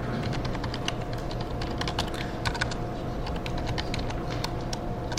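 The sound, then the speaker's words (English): Code being typed on a computer keyboard, with rapid, continuous clicking keystrokes in an uneven rhythm throughout. “If I can type correctly. So I type my code”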